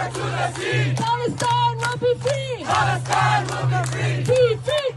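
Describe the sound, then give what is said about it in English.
Crowd chanting at a New York City protest by groups backing Palestinian independence: many voices shout a rhythmic chant together, loud and continuous, with a steady low hum beneath. “Here's the sound of a protest in New York City.”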